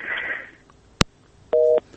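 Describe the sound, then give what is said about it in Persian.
A phone call cuts off with a sharp click. After a short pause, steady disconnect beeps begin: one sustained beep, then the start of another. “تماسی از برادر ما قطع شد”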